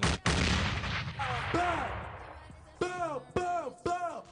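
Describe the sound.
Bomb sound effects: a few sharp explosive bursts, several followed by falling whistling tones, punchy and spaced out across the stretch.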